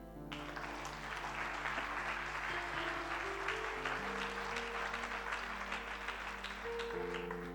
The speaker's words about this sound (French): acclame Dieu.